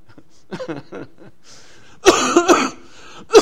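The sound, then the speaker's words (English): A person coughs: a few softer throaty sounds at first, then a loud, harsh fit of coughing and one more strong cough at the end. “Excuse me. I've had this cough.”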